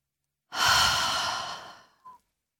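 A single long exhaled breath, released all at once during a relaxation exercise. It is a breathy, sigh-like out-breath that starts strongly, holds for over a second, then fades away, with no talk.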